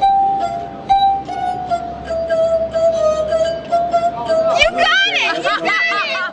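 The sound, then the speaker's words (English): Musical glasses ring as fingers rub around the glass rims, producing a pure, sustained tone that holds one steady pitch for several seconds before people's chatter and laughter burst in near the end. “If the sound made by rubbing the fingers on the rims of glasses seems like a barroom trick, consider that musical glasses have been played for centuries.”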